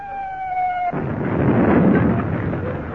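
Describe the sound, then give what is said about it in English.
Artillery shell exploding near salvaged target ships: a steady high tone cuts off into a loud, broad, rumbling blast that roars on without fading. “Yeah, how right you were. And it wasn't a bomb, it was a shell.”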